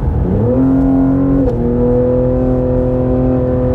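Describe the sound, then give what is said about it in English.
Loud engine revving from a 2021 Cadillac CT5-V luxury sports sedan in sport mode: the pitch climbs quickly, then settles into a steady, strong drone that holds to the end. “So one thing about this car is it is loud. It is very loud for a little luxury sports sedan. Now, I'm in sport mode here.”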